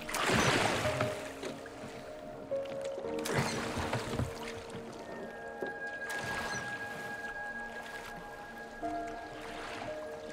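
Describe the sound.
Oars dip and splash as a rowboat moves across a lake, with water sloshing in slow, irregular strokes. Soft sustained musical tones run underneath.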